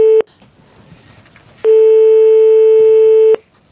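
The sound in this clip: A telephone line tone sounds while a call is being placed: a short loud beep, a pause, then one long steady tone that cuts off cleanly.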